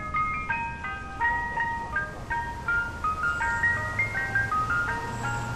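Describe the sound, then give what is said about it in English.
An ice cream truck's jingle at an intersection in Central Islip, a bright repeating tune of chiming high notes over a low, steady engine hum. “An ice cream truck approaches an intersection. It stops, then continues across the road.”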